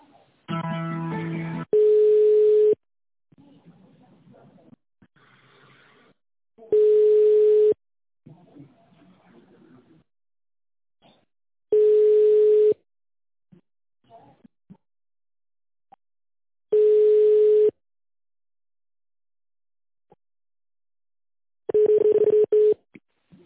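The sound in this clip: Telephone tone while a call is transferred to another department. Five steady mid-pitched beeps, each about a second long, repeat roughly every five seconds, with faint line noise and murmur between them.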